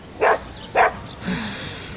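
Two short, sharp barks from a pet dog, evenly spaced, then a quieter, longer sound trailing after them.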